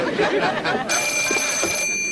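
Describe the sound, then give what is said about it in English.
A telephone rings with a steady, high electronic tone that starts partway through and holds to the end, after a stretch of murmured voices. “Phone?”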